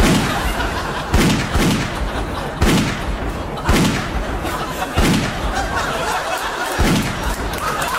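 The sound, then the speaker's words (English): Several gunshots from a gun fired at a guest ring out one after another at fairly even intervals. Each is a sharp, loud, booming crack over a constant noisy background. “Maybe accidentally shoot him a few more times, just to be sure.”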